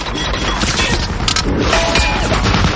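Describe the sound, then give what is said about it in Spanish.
German 20 mm machine gun fire in a World War II combat scene from Saving Private Ryan, a loud, dense barrage of rapid shots mixed with heavy crashes and impacts, continuous throughout. “Los alemanes traen una ametralladora del 20 que barre a los soldados que están sobre el tanque.”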